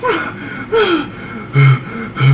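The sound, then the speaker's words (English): A voice imitates a man panting, out of breath after climbing stairs: four loud, breathy gasps in an uneven rhythm, the last two carrying a low voiced grunt. “And he was out of breath because there's steps in the building. So he was out of breath. He had just climbed up or down stairs.”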